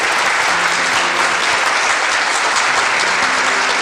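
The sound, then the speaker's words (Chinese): Steady audience applause welcomes a guest onstage at a TV program recording. Dense, even clapping fills the whole clip at a constant loudness, with no voices. “让我们掌声欢迎严阿姨上场”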